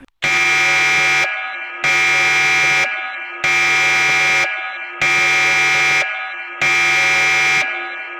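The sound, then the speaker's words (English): A home security panic alarm goes off with a loud, buzzy, harmonic tone. It sounds in a slow, regular cycle of long blasts, each about a second, broken by short gaps, with six full blasts and a seventh just beginning. No one speaks. “it sounds very different than the panic alarm. It, like I said, slower.”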